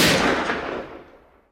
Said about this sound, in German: Der Idiot hat sich erschossen.